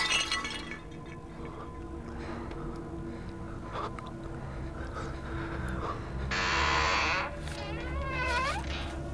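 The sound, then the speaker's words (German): A glass pane in a front door is smashed in with one loud, bright crash of breaking glass over a low, steady background rumble. “Wir gehen durch die Vordertür. Wir schlagen die Scheibe ein.”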